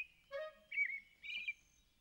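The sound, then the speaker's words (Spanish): Adult thrush singing: three short, clear whistled phrases in quick succession, each with bright, warbling high notes, with no voices. “Nunca he escuchado esa canción. ¡Es un tordo! ¡Un tordo adulto!”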